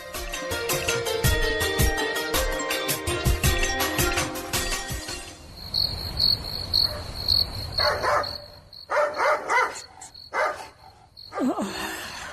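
A dog barks at night over a steady, high, shrill chorus of crickets that fills the whole clip. Several short bark bursts cluster in the latter half.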